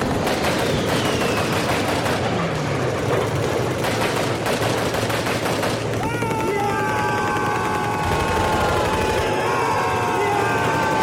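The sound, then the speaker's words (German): Automatic weapons fire from two opposing sides in a radio-play battle scene, a dense, continuous rattle of rapid bursts that stays loud the whole way through. “Jetzt schießen beide Parteien mit Schnellfeuerwaffen.”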